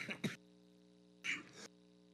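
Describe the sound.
Two short coughs, or throat-clearing bursts, sound about a second apart, each rough and brief, over a faint steady electrical hum.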